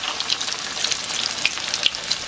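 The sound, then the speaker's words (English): Potato cakes sizzle in a frying pan, a continuous bright hiss of hot oil dotted with many small crackles and pops. “I'm gonna continue to cook these guys, and I'll see you guys shortly for a tasting. We will be tasting these delicious potato cakes”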